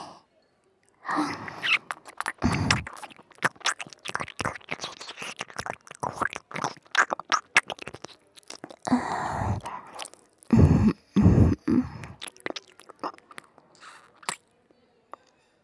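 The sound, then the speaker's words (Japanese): Wet ASMR ear-licking mouth sounds: many soft smacks, slurps and clicks in irregular clusters, quiet overall with short silences between bursts and a few louder wet spots near the end. “耳をなめる音が脳に突き刺さってバカになっていくわよね。”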